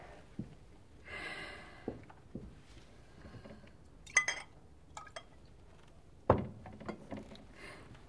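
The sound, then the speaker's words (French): Glass clinks as a glass of water is poured and handed over: a few light, scattered clinks and clatters, with a sharper knock near the end and no voices. “Un verre d'eau, s'il vous plaît.”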